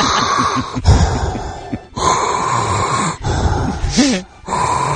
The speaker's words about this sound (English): Does he breathe like that still? Yeah, that's my Darth Vader.